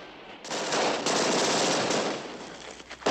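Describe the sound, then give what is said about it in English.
Rapid automatic gunfire as a police officer is shot down during a shootout around an armor-plated car. A long, loud, continuous burst is followed by a brief renewed burst at the very end. “Moss guns down a cop as Bonnie and Clyde scramble into their car.”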